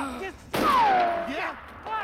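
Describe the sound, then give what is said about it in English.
Gunfire in a film shootout: one loud, sharp blast, followed by a shouting voice whose pitch falls. “puts another bullet in the henchman but gets shot himself”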